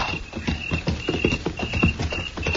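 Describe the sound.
Hooves of horses clip-clop as riders move on by moonlight, a dense, steady stream of overlapping hoofbeats at even volume with no talk.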